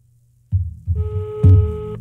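A telephone ringing tone on an outgoing call: a steady, buzzing tone rich in overtones that holds for about a second over a low, throbbing hum.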